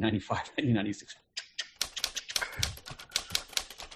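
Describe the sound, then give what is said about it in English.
Typewriter keys clacking in a quick, irregular run of sharp strikes, which follows a brief stretch of a voice speaking at the start. “So I would write these crappy typewritten letters out, you know, with a typewriter, dude.”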